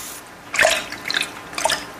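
Water splashes from a tap as someone shaves, coming as three short, bright bursts of dripping and trickling with quiet gaps between them.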